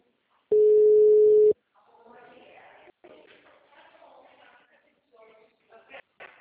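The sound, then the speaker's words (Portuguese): A telephone ringback tone on a call that goes unanswered: one steady, loud, mid-pitched beep lasting about a second, followed by faint background noise and rustling. “Eu tô ligando também, mas ninguém me atende”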